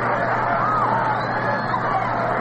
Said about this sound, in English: Got a pretty good crowd here looking on at this one. This ballpark holds 42,500. And they're still coming in.